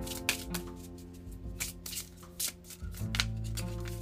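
Soft papery rustles and slides of cards as an oracle card is drawn from a deck during a card reading, a few quiet shuffling bursts over a low, steady background tone.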